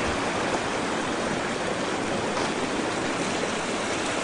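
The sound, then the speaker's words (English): Steady rushing roar of a waterfall and creek, with the creek freezing over, as a dense, even wash of water noise that holds constant with no voices. “There's the waterfall.”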